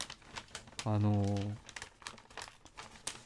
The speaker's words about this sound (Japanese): あの懐かしい、これ伊勢丹のさ紙袋とかさ